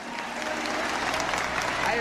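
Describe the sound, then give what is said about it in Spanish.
An audience applauds the president of the Dominican Republic at a formal ceremony, with a soft, continuous patter of many hands held at a steady, low level while voices talk over it. “Un aplauso a Abinader.”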